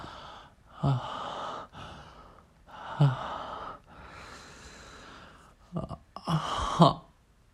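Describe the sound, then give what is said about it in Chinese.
Heavy breathing close to the ear: a few long, breathy exhales and sharp gasping inhales rise and fade in slow uneven pulses, fairly soft, with no speech. “如果只是在你耳边，啊？在你耳边这样喘气的话”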